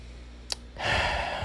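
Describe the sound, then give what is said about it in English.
A sharp intake of breath: a sudden, breathy rush of air that starts abruptly and holds steady, just after a brief click. “That's my breath. See how I just took it?”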